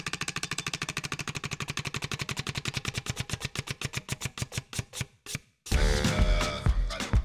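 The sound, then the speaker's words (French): An old, worn prize wheel spins with a fast run of regular ratcheting clicks that gradually spread out and slow to a stop. A denser, louder sound then takes over. “Je tourne la roue des tubes de l'été qui a quelques heures de vol au compteur au regard du bruit qu'elle fait. Écoutez.”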